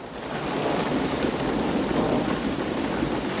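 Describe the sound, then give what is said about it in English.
Heavy rain pelts down on a stationary car, a dense steady hiss and drumming that swells briefly at the start and then holds even, with no voices. “The rain continues to pelt down on the stationary vehicle.”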